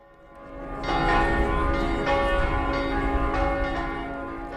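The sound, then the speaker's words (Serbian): Church bells ring out to open an Ascension Day religious procession. The peals are loud and rich, with several overlapping strikes that build in and then sustain a dense, resonant ringing throughout. “Zvona Vaznesenske crkve označila su početak Spasovdanske litije.”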